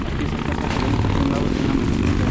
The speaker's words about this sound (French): Des motos passent régulièrement.